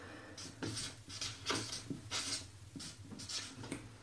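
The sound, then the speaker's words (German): Faint, scratchy strokes of someone writing several things down one after another, coming in a series of short bursts with brief pauses between them. No voices are heard. “Ja, also zum Beispiel, ich schreibe jetzt mal mehrere Sachen hintereinander.”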